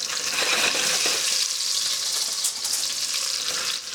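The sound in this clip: Meatballs fry in oil in a pan with a lid, giving a steady, loud crackling sizzle with dense popping throughout and no talking.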